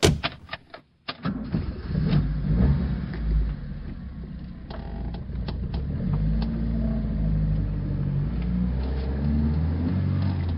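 A car driving along, with a steady low engine rumble that holds evenly throughout after a few brief clicks and knocks at the start.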